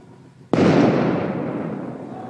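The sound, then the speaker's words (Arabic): Stun grenades and tear gas canisters fired by Israeli soldiers confronting Palestinians in a densely populated area: a single sudden, loud bang follows a low background hum, then a long rumbling tail fades slowly. “إذن نلاحظ أن الجنود الآن بدأوا بإطلاق قنابل غازية وصوتية.”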